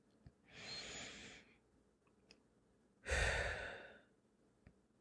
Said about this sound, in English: Let's stop and take a breath.